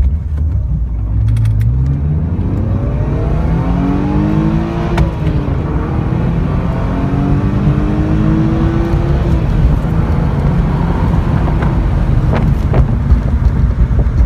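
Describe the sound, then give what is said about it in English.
Engines of an R129 Mercedes SL and a Mercedes Cabriolet accelerating in a race. A constant roar carries tones that climb repeatedly through gear changes, under heavy buffeting wind noise. “I raced the Cabriolet and the SL, and actually have a video that I did afterwards of the two speedometers that I can put right here.”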